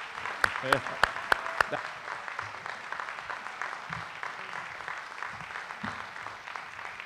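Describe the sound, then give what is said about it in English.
Audience applause after a worship song: a few sharp, loud claps at the start, then a dense, steady wash of clapping that carries on evenly to the end. “Wow, that was great. What a beautiful song. Let's give him another hand.”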